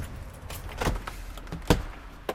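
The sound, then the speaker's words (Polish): A bunch of twelve keys jangles at the door of an artists' studio in a restored historic building. Soft, irregular metallic clinking runs throughout, with a few sharper jolts and no talk. “Mam tutaj 12 kluczy, więc trochę to może potrwać.”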